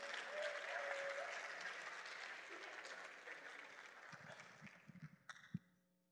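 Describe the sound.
Audience applause welcoming a guest speaker to the stage at a Sunday church service. Soft, dense clapping holds steady, then thins out to a few scattered last claps before it stops.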